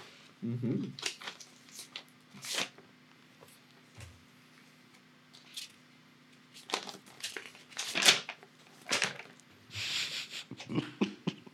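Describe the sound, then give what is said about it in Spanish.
A sealed envelope is torn open, producing repeated rough crackling rips and crinkles of paper in uneven bursts with brief pauses between them. Speech can be heard at times. “sobre. está, como puedes ver, sellado, ¿eh? sí, sí, sí. Tengo que romper el sello.”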